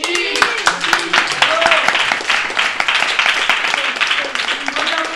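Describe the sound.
Children applauding their classmates: brisk, uneven hand clapping that goes on throughout, with young voices calling out over it.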